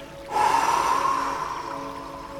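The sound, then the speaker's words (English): One long, breathy exhale through the mouth during a breathing practice, starting abruptly and fading gradually over about two seconds, with a faint steady hum underneath. “Exhale through the mouth.”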